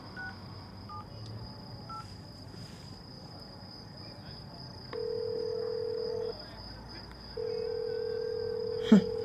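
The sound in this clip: A telephone call is dialed with a run of faint keypad beeps, then two long, steady ringback tones sound with a gap between them, while a high, constant insect chirr runs underneath throughout.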